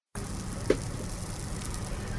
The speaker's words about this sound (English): Salmon patties sizzle on the grill at the Salmon Spot, a new addition to Juneau's many downtown seasonal food stands.